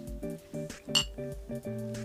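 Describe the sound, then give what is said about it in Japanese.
A single bright clink of glasses of whisky and water meeting in a toast rings out sharply once, set against steady, soft tonal background sounds. “じゃあ乾杯。”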